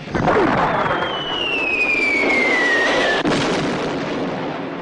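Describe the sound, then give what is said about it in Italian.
Gunfire shooting at people in a battle, a dense, sustained roar of fire with a high whistle gliding slowly downward and an abrupt break near the end. “Invece di sparare dove c'è il generale, sparano a noi.”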